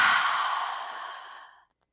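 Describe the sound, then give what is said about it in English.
A deep exhale through the mouth: one long, breathy rush of air lasting about a second and a half, strongest at the start and fading steadily until it stops, with no talking. “And now exhale out through your mouth.”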